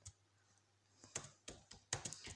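Quiet typing on a computer keyboard, a few scattered key clicks at first, then a faster cluster of sharp taps.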